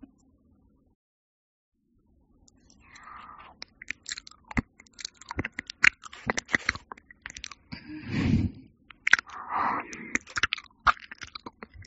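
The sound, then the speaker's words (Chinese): Wet ASMR ear-licking mouth sounds, many soft smacks, clicks and squishy slurps in an irregular rhythm, beginning after about two seconds of near silence, with no talking. “太过分的我可能还要适应一下，从简单的开始，舔您的耳朵，我试试。”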